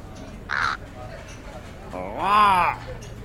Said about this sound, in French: Un corbeau. Un corbeau marseillais.